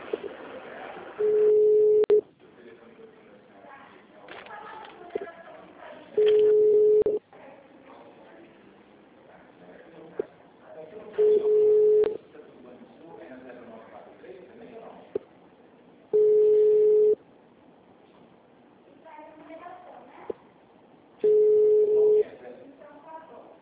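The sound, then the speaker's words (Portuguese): A telephone call that is dialed, rings, then goes to an extension: five steady ringing tones, each about a second long and spaced roughly five seconds apart, with muffled voices and other low sound in the gaps. “Porque aqui eu já disquei, chamou e já foi pro ramal.”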